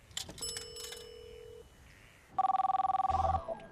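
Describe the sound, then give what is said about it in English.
A telephone rings with a rapid trilling burst of bell tones in the second half, preceded by a few short electronic beeps and a sustained tone. “picks up the phone”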